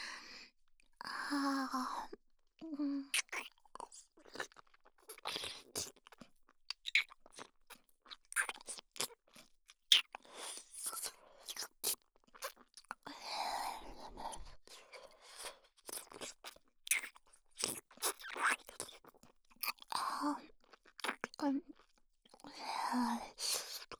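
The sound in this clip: Crunchy chewing and biting sounds come in many quick crackling munches at an irregular rhythm. They are close and fairly quiet, with soft whispering between them.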